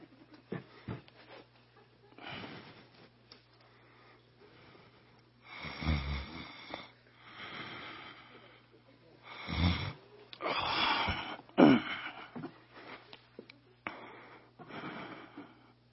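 Snoring from someone dropping off to sleep: several loud, wheezy, rasping snores separated by quieter pauses, with irregular timing.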